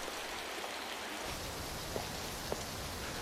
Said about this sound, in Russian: Дождь. На улице нет никого.